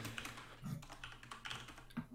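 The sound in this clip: Typing on a computer keyboard: a faint run of irregular, crisp keystroke clicks that come in small bursts, with no voices.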